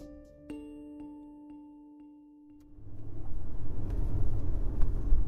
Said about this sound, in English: It's late October, and I'm driving through the wealthy Bay Area enclave of Los Gatos with my podcast manager, Matt.